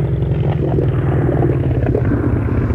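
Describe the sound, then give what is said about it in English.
A boat engine being throttled down gives a deep, continuous rumble, a steady low drone with a slight rattle and no break across the whole stretch. “Better take it slow, Skipper. Okay, I'll throttle her down.”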